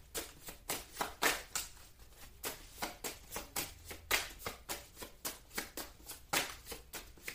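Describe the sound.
Shuffling of a deck of playing cards gives many quick, crisp papery bursts in a steady, even rhythm. They are fairly faint and heard alone.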